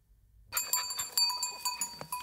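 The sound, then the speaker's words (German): A herd of goats grazing a southern French forest in Provence for wildfire prevention, with many bells clinking and jangling irregularly at a faint level and no talk. “Das ist keine normale Ziegenherde. Es ist quasi eine Einsatztruppe der Feuerwehr.”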